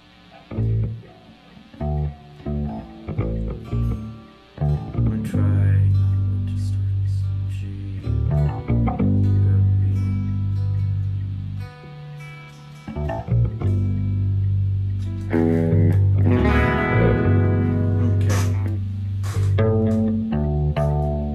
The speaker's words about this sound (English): Let me know if the distortion sounds alright. Does that sound okay?